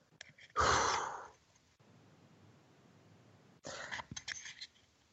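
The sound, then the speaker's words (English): A deep breath drawn in and released during a group meditation circle: one loud, breathy rush of air near the start, then a quiet stretch, then a few shorter, softer breathy bursts toward the end. “So take a deep breath, fill it up with light and love, and release it.”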